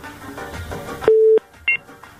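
Telephone tones sound as a call connects on a radio phone-in. A steady mid-pitched beep is followed by a brief dual-tone blip after some quieter background sound.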